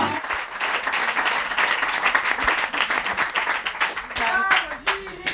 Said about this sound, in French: Merci beaucoup pour cet accueil, je suis toute... C'est bien, on a fait du bruit, enfin vous surtout.